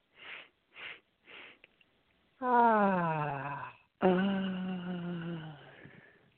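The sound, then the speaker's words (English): Breathing exercise in a laughter yoga session: three quick sniffing inhales, then two long deep exhales voiced as an open "ah" that glide downward in pitch, separated by a brief pause. “So we're going to take in 3 deep breaths.”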